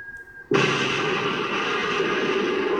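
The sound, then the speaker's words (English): An air strike explosion in a zombie film hits suddenly and loudly after a quieter opening, its shockwave blowing the shingles off the roofs, then settles into a sustained, dense roar and rumble that holds steady to the end. “They will call in that strike. And I love that this shockwave blew the shingles off of these roofs.”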